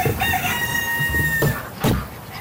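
A rooster crows once inside a large poultry barn beside a busy road, giving a long, drawn-out call over steady background noise, followed by a few brief, rough bursts of sound.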